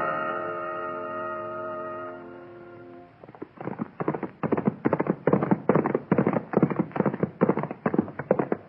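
Hoofbeats of horses being ridden, one of them named Topper: a long run of steady, rhythmic thuds that begins once a sustained tonal chord fades out, and carries on loud and even to the end.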